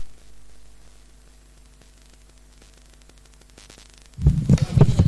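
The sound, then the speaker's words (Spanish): Microphone being switched on, faint electrical hum and static for several seconds, then an abrupt jump to loud, low thumping handling noise at the end. “Voy a encender el micro.”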